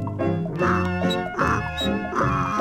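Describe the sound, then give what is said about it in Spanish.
A little donkey crying and braying in a children's story song, heard as a few nasal, strongly harmonic honking cries in quick succession. The cries are loud and wavering, with no talking. “El burrito está llorando.”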